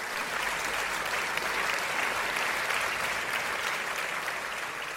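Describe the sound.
Talk-show audience on its feet applauding to welcome a guest, a psychic medium and animal communicator; full, dense clapping stays loud and even throughout without pause.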